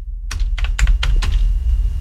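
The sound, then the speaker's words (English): Computer keyboard keys clack in a short, uneven burst of typing, a handful of sharp, bright clicks spread over about two seconds above a low steady hum, with no voices. “Maybe I just need to type it out.”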